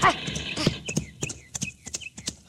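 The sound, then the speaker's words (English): Hoofbeats of a stallion ridden in at speed and arriving at a gate clatter in a quick, uneven run of many sharp clops. “You have ridden your great stallion, Aquila, until he is ready to draw.”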